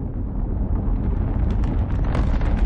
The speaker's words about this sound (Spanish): El viento mueve las lonas de una tienda de campaña.